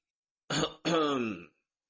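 An elderly man gives a dry cough in two parts: a short hoarse burst, then a longer, voiced, throaty rasp, alone against silence.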